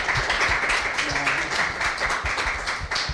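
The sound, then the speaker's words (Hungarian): An audience in a café applauds to welcome a performer, a steady mass of clapping that carries on evenly from start to finish. “egy nagy tapssal köszöntjük őt itt a kávézóban.”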